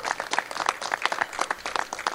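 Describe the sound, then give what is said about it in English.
An audience applauds at a film-community gathering. The clapping is dense and steady, with many hands, and it holds throughout with no lull. “Let's give John Scardino a round of applause.”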